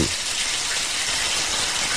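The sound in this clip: Running shower water, a steady, dense hiss of spray that stays even and loud across the whole two seconds with no pauses, drips or voices.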